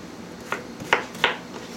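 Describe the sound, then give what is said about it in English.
Potatoes, onions and carrots dropped into an Instant Pot pressure cooker, three soft, short thuds in quick succession over a quiet background hum. “Potatoes are going in. So onions, carrots, all going in my Instapot.”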